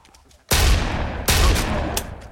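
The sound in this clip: Scatter-shot gunfire in a zombie video game: loud blasts burst out at intervals, each followed by a dense roar that hangs on, with a sharper crack near the end.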